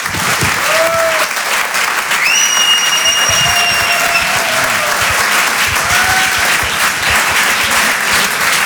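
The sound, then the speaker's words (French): Applause from a comedy club audience as a new stand-up comedian is welcomed to the stage: dense, steady clapping that holds at an even loudness for the whole stretch, with no talk over it. “Faites du bruit, s'il vous plaît, pour Jean-Benoît Diallo.”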